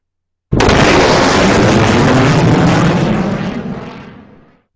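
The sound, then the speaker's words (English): A sonic boom from a jet breaking the sound barrier bursts in suddenly as a loud, broad rumbling roar that holds steady, then fades away over about four seconds. “When they move at a certain speed, it creates a sonic boom. And that sonic boom breaks the sound barrier. It sounds something like this.”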